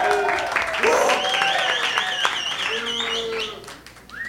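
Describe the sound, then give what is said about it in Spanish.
Audience applause welcoming a performer, steady clapping mixed with loud voices throughout, easing off briefly near the end. “un fuerte aplauso a Steven.”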